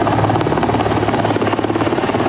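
A military helicopter flies with a loud, continuous rotor thrum and a rapid steady pulse that holds throughout without a break.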